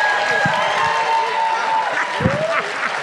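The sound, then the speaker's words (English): Audience clapping and cheering as comedian Chris Redd is introduced: a dense, steady stream of applause mixed with whoops and shouting voices, at an even level throughout. “And we should start clapping now for SNL's own Mr. Chris Redd!”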